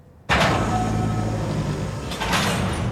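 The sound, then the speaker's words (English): A heavy door sliding shut: a sudden loud onset of rumbling, whooshing noise that holds steady, then swells again briefly near the end, with no voices. “The door closes behind Alice.”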